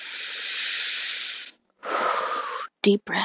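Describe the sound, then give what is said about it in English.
Deep, slow breathing: a long airy hiss of breath followed after a short pause by a second long breath, then a couple of quick, shorter breathy sounds close together at the end. “I'm going to breathe for a second”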